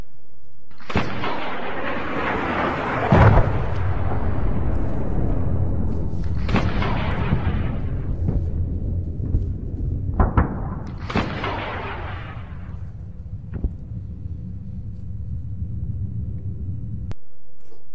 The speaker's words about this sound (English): put out a video online of a video game, and this general thought it was actually Ukrainian missiles shooting down Russian MiGs